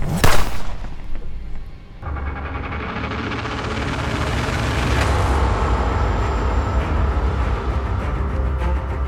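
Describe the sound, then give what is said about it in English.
Gunfire-like blasts aimed at the listeners: a loud, sharp burst opens, then after a short lull a dense, continuous roaring barrage of noise runs loud and steady to the end. “Are they shooting at us?”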